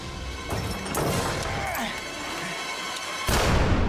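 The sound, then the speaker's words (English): A few sharp gunshot-like bursts from Bond's gun firing during a scuffle on a scaffold tower over a town square, cutting through a dense, noisy background that swells louder near the end. “Bond fires.”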